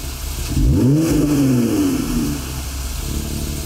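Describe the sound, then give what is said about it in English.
A Jeep Gladiator V6 with a Borla Touring exhaust revs once, its low engine note climbing and then easing back down, over a constant loud rumble. “This would be the Jeep Gladiator V6 Borla Touring Climber System.”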